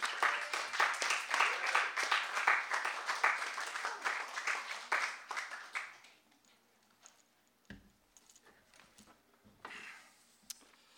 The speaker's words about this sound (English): Please join me in giving former Skylight bookseller turned publishing mogul, Clark Allen, a warm welcome.